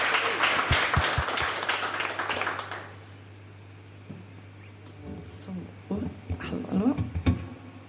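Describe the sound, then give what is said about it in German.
Loud applause from a live radio studio audience fills the first three seconds as a dense wash of clapping, then drops away abruptly, and a voice speaks over quieter sounds afterward. “Also jetzt bitte nochmal einen donnernden Applaus”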